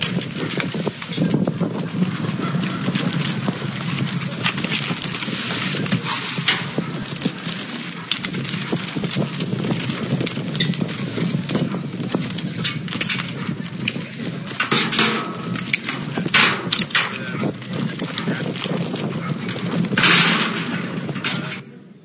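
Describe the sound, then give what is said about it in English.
A rancher's flock of animals on a played video: a continuous, fairly loud mass of patter and trampling movement with scattered animal calls that runs unbroken for over twenty seconds, with some wind buffeting. “About a week after he got back, I got this tape, or this video, of his flock.”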